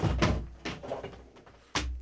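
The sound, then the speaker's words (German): A box holding a spice tin is opened: a few soft knocks and dull thuds, then a sharper, louder thump near the end, alone without talk. “ich werde jetzt mal quasi in Ihrem Namen die Box öffnen, damit Sie hier nichts anfassen müssen.”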